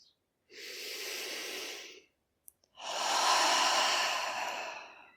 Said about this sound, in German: Atme vielleicht nochmal tief ein und aus.